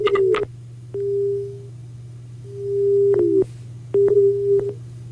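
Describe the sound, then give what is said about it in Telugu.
Telephone busy tone on a radio call-in line after the caller's connection dropped: three steady, mid-pitched tone bursts of uneven length with short gaps, over a constant low hum and a few sharp clicks. “Phone line cut అయినట్టుంది.”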